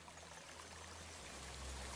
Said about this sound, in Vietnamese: Trời đất đổ mưa, sau những hạt mưa đầu tiên thì một cơn mưa lớn xuất hiện. Mưa xối xả